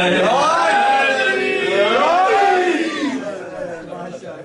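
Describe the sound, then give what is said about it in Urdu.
A crowd at a religious gathering on Eid night shouts the Naara-e-Haidari slogan in unison. Loud, drawn-out voices rise and fall together, then taper into looser scattered shouting. “اگر آپ کو اعتراض نہ ہو اور آپ 3 گھنٹے خطاب سننے کے لیے تیار ہیں تو ایک نعرہ حیدری سنا.”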